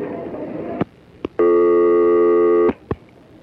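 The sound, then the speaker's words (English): A telephone line tone while dialing a hotline, likely a busy signal: a few sharp clicks surround one sustained, steady electronic tone lasting over a second, after a stretch of background hiss. “I'm not too sure what'll happen if we use some of these buttons here, but let's see if we can dial up their hotline.”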